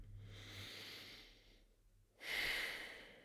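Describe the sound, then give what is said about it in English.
A deep breath drawn in, heard alone and fairly faint. A soft, airy breath sound fades, and after a short pause a stronger, louder inhale follows. “So let's take a deep breath in.”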